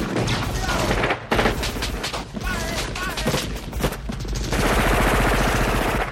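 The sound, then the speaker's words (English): Rapid M16 rifle gunfire in a film action scene, with loud, dense bursts of automatic shots firing almost continuously, a few brief pauses, and heavy booming impacts mixed in. “Dutch, who's seen, I think so, right away firing his M16 basically everywhere around the screen. Screen left, screen right, right behind him.”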